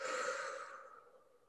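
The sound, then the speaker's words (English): A slow breath released through the mouth during a guided relaxation exercise, a breathy, sigh-like outflow that starts fairly full and fades steadily over about a second and a half, with no talking. “So let's just take a deep breath in through our nose of confidence and clarity. And release all the stress, overwhelm, and anything that doesn't serve you through your mouth.”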